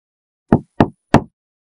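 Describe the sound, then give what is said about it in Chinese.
Three sharp, forceful knocks on an old side door, evenly spaced and loud against otherwise silent surroundings. “这会儿敲门不温柔了，还是那个老门奴开的侧门。”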